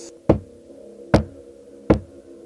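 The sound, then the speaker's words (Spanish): Knocking on a wall, the legendary knock of Bartolo's ghost in an old German restaurant: three dull, evenly spaced thuds, each sharp at onset and quickly decaying, alone in quiet. “el espíritu de Bartolo golpea la pared en aquel lugar.”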